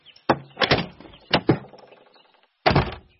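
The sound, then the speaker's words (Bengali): A balcony door is shut and fastened with three bolts. Several heavy thunks and clacks land in short bursts with quiet gaps between them, and the final knock comes after a longer pause. “আবার ব্যালকনির দরজা 3টে ছিটকিনি বন্ধ করে দিল”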